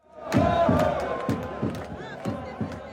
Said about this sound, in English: That is the sound of Iraq fans celebrating, even though they lost to France, and even though it was a very long night.